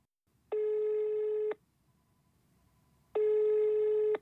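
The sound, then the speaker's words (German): A telephone ringback tone as an outgoing call rings: two steady, buzzy one-second tones separated by a silent gap of about a second and a half, with no talking. “Aber nach dem, was wir jetzt alles wissen, müssen wir ihn unbedingt nochmal anrufen.”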